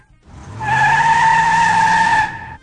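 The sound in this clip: A car tire squeals in one sustained, high-pitched screech that holds steady and loud for about two seconds before cutting off.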